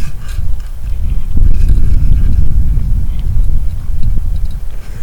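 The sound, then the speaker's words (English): Wind buffets microphones set among birch trees, producing a loud, steady low rumble that surges in gusts throughout. No one speaks. “because we have quite a little bit of wind, we will see what happens. Wind, of course, doesn't make good recordings.”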